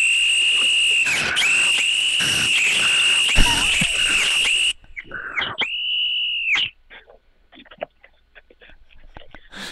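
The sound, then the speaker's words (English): A person whistles a sustained, piercing high tone for nearly five seconds, then gives a couple of shorter whistles that swoop in pitch, followed by scattered quieter noises. “Gotta do Fred's whistle again. Fred's whistle.”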